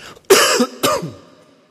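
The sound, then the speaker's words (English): Two close, harsh coughs go straight into a microphone. Each is a loud, throaty burst, the second slightly weaker, and then a soft tail fades out after them. “I'm sorry about coughing straight into this microphone, I can't avoid it.”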